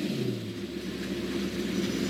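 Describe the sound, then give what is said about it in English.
A car motor drones with a low, steady rumble, fairly faint and even throughout, with no sharp rise in pitch. “Listen to that motor.”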